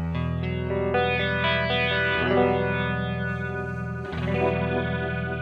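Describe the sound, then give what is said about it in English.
Electric guitar played through a Kemper Profiler with a rotary speaker effect: sustained chords swirl with a steady pulsing warble, changing chord a few times. “So on the next sounds, we have some different effects. let's say here, the rotary.”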